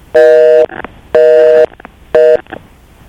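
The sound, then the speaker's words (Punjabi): Telephone line tone after a call disconnects partway through, sounding three steady, buzzy beeps of roughly equal length separated by short gaps, with faint noise in between. “ਤੁਹਾਡੀ ਕਾਲ ਮੇਰੇ ਖਿਆਲ ਨਾਲ ਵਿੱਚੇ ਹੀ disconnect ਹੋ ਗਈ ਹੈ”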